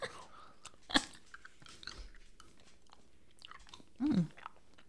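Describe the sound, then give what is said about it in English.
A hard tubular candy is bitten, giving one sharp crack near the start followed by faint, scattered crunching and chewing in an otherwise quiet moment. “Oh, this is way harder than the peanut butter kisses. I don't think you're going to be able to bite that.”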